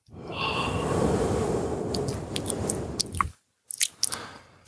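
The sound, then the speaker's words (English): Wet ASMR mouth noises with lip smacking: a long, steady stretch of squishy, chewing-like sound, then a short silence and a few sharp, moist smacks and clicks. “Lip smacking. Oh, it's the worst. And that's actually something that my friend Jason also, he calls me king of mouth noise. I'm going to do some ASMR.”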